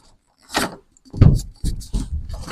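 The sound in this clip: A door latch clicks shut as the door is pushed closed, giving several sharp clicks and knocks spaced irregularly over a couple of seconds, fairly loud and close.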